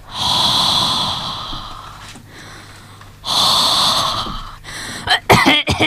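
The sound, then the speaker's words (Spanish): Heavy, raspy breathing close behind someone's neck, two long hoarse breaths, then a quick run of snorting, coughing bursts. “¿no tenéis la sensación de que alguien respira en nuestro cogote?”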